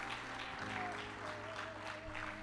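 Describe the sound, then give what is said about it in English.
A church audience applauds after welcoming new believers: a dense, steady clatter of many hands clapping that holds at an even level for the whole stretch. “let's put our hands together and welcome these folks into the family of God.”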